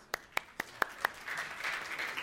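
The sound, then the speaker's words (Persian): Applause in a teaching session: five evenly spaced single claps, then a brief, soft burst of scattered clapping from a small group, fairly quiet throughout. “مرسی، تشویقش کنیم.”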